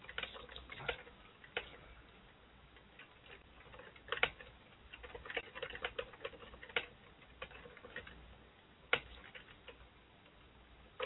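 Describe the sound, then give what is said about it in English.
Faint typing on a computer keyboard: irregular light clicks and taps with scattered louder keystrokes over a quiet background, and no talking. “typing at the same time”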